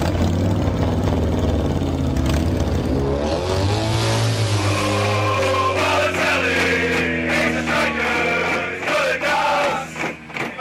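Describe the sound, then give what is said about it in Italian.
A Harley-Davidson motorcycle engine revs loud and continuous, its pitch climbing midway as it rides away, with a brief dip in level near the end. “Questa è una moto che va via, correggetemi se sbaglio.”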